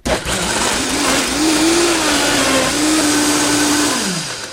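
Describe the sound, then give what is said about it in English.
Powerful 2.5-horsepower blender pulsing a spice rub: a single loud burst of steady motor whir lasting about four seconds, wavering slightly before winding down. “So really quickly, I'm just going to pulse this.”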